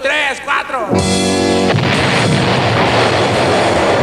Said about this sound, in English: And Communist China conducted a successful test of its first atomic bomb.